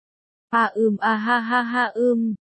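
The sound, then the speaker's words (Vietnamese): A long, drawn-out moan from a young man, voiced and fairly steady in pitch, broken into a few short swells before one sustained stretch and a final shorter push that cuts off. “Hứa Chi Hiểu đột nhiên phát ra một tiếng rên thật dài.”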